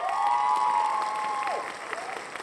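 Applause greets a guest in a steady wash of clapping, mixed with a sustained ringing tone that bends downward partway through.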